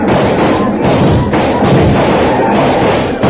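A volley of gunfire in a radio western drama set during a fight with Apaches. It comes as a loud, dense, continuous roar of overlapping shots with no clear gaps between them.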